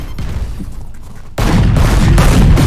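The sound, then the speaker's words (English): Gunfire in a video game shooter: a steady, dense crackle of shots jumps abruptly to a louder, sustained barrage of rapid automatic fire partway through, with no talk over it. “Dude, I'm shooting him.”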